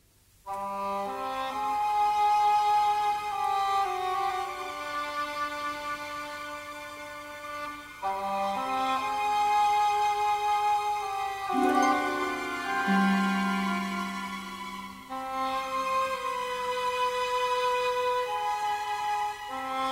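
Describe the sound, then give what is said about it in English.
A slow orchestral film-score melody plays as a lone tune of long, sustained notes with little harmony. The phrases move between held pitches and are steady in loudness throughout. “And the medallion theme, I guess it's being called that because when we first hear it is in Nepal, and Marion is holding this medallion, or the, you know, the headpiece, which sounds a bit like this.”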